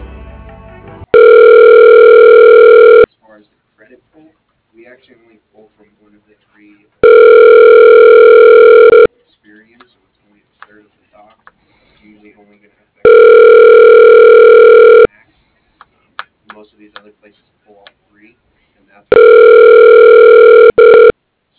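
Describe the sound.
A telephone line rings while a call is transferred to voicemail: four steady, evenly spaced tones, each about two seconds long, with quiet gaps holding faint clicks and rustles between them.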